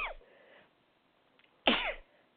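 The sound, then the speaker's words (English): One sharp, loud sneeze bursts out and ends in a breathy tail. A shorter, softer burst and faint breath come before it. “Just hang on 1 second because I sneezed and I can't go forward.”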